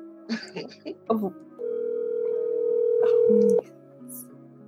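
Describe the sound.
A telephone ringback tone sounds while a call is being placed: one long, steady, even tone lasting about two seconds, heard after a few moments of brief talk.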